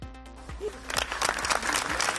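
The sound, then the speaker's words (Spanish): Applause breaks the silence at a memorial march in Sueca for a murdered 13-year-old boy. Scattered claps build into steady clapping from the crowd. “Con esos aplausos se rompía el silencio en una marcha convocada en su pueblo la pasada tarde.”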